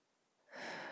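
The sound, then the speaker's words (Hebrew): A long, deep inhalation during a guided breathing exercise: a breathy, airy rush that swells in sharply partway through and holds steady and full to the end. “אז בואו ניקח שוב שאיפה אחת מאוד עמוקה, מאוד ארוכה, לרענן את הפנימיות שלנו.”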